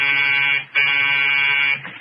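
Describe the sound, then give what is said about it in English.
An apartment door buzzer hums loud and steady in two long bursts separated by a brief break, then trails off into a quieter tail. “Then the buzzer to the Smith's apartment hummed like an angry bee.”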